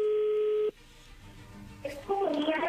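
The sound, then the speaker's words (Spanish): A telephone call connecting: a steady ringing tone holds for under a second and then cuts off, leaving faint line noise before a voice answers near the end. “Ya entró la llamada.”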